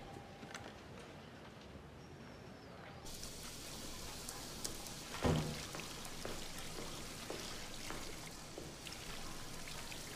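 Running water while hands are washed, a faint, steady trickling flow with one brief louder splash partway through.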